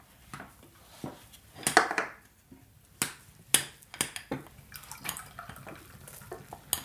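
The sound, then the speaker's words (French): Light clinks, taps and scrapes of serving utensils and dishes as a shepherd's pie made with haggis is cut and served onto plates. Many sharp, faint knocks come at irregular intervals, with no talk. “Vas-y, vas-y, tu peux commencer à servir. Allez, on va couper ce beau haggis parmentier.”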